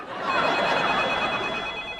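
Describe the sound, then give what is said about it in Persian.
A telephone rings with a steady, high-pitched electronic tone that holds through the whole moment over a hissy background, with no voices heard. “میدونم تلفنه، دارم میشنفم صداشو.”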